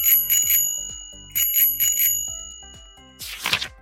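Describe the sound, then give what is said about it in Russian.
Bicycle bell ringing in two quick bursts of bright, high metallic chimes separated by a short pause, loud and clear with no talking. “Звонок на велосипеде звенит. Дзынь-дзынь.”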